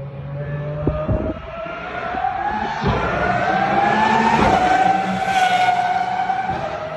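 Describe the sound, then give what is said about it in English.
A high-pitched big V12 race car engine screams through a pit lane, its loud whine climbing steadily in pitch throughout, with no talk. “High-pitched. That's one car. That's one car by itself. It's just insane. Where is that high pitch sound? It's a big V12.”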